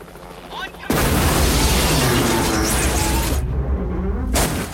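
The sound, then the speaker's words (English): A section of a warehouse explodes and collapses. After a quiet start, a sudden loud blast hits about a second in, then a heavy, roaring rumble of falling debris runs on before cutting off abruptly near the end. “A section of the warehouse explodes and collapses.”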